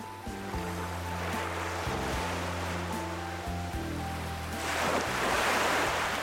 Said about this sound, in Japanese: 海の波の音。